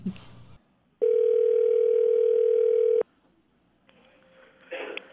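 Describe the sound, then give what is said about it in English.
A telephone being dialed: a loud, steady dial tone holds for about two seconds, then stops, and a fainter tone with some crackling noise follows. “Dial her up”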